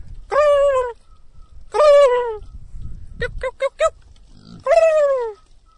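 A person imitates a turkey gobble to call farm turkeys at feeding time. Three loud, drawn-out calls drop in pitch, and a quick burst of short clipped notes falls between the second and third.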